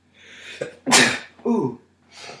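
A single loud, explosive sneeze bursts out after a soft breathy intake, followed by a shorter gasping breath and a faint exhale.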